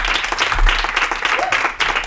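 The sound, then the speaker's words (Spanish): Applause breaks out for a guest. Brisk, continuous clapping with small swells fills the whole short stretch, under a low steady hum. “Un aplauso para ella”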